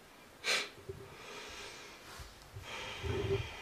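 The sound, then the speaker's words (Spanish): Deep breaths drawn through the nose during a guided relaxation exercise: a few soft, airy inhales and exhales, one near the start and a longer one at the end, faint and unhurried with no talk. “y tomas tres respiraciones más profundas.”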